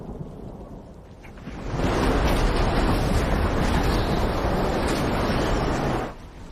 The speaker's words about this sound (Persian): طوفان دوباره شروع شد.